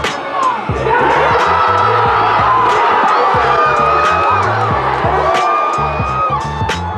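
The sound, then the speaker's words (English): Basketball fans at Mad Oak bar near Lake Merritt in Oakland cheer the Warriors' Game 5 win, a loud, lively mix of shouting, whoops and excited yelling over a low, steady pulsing sound. “That's the sound of fans watching at Mad Oak near Lake Merritt.”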